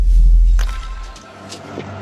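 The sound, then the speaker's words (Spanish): A car speeds away in a criminal getaway after an attack: a heavy, low engine rumble that is loudest at the start and eases somewhat, with no voices. “escapan a toda velocidad en el auto”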